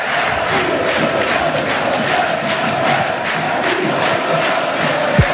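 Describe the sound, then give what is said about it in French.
Rugby crowd in the stands at La Rabine stadium in Vannes, Brittany: a loud, unbroken roar of cheering and chanting with rhythmic surges throughout and a single thump near the end. “Et on saute dans les tribunes Vantes. Écoutez la belle ambiance de la Rabine.”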